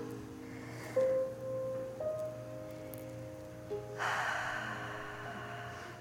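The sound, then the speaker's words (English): A slow, deep breath rises as a soft airy hiss over a quiet, sustained tonal drone, following a shorter breathy sound near the start, in a calm guided breathing exercise. “Let's take some deep breaths together.”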